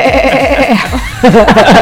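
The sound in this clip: A person imitating a goat's bleat with a loud, wavering, nasal voice in quick quavering pulses, with a short break partway through.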